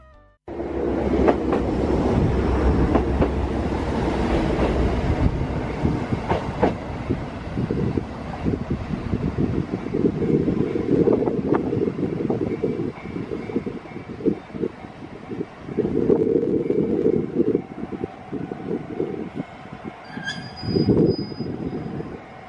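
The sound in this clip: A train runs toward the listener and passes beneath a pedestrian footbridge as it heads for Kushiro. A loud, sustained rumble and clatter carries high wheel squeal and wind buffeting, with rhythmic wheel clacks pulsing near the end.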